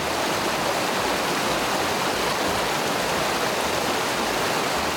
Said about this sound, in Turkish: Su sesinden başka hiçbir şey işitilmeyen Plitvice Parkı içindeki göllerde tekne turuna da çıkılabiliyor.